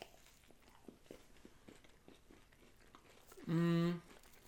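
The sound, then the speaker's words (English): Biting and chewing a chocolate snack. Soft crunchy clicks and patter run for a few seconds beneath quiet talk, then a short, loud hummed voice follows. “Just like try to get both on the same bite.”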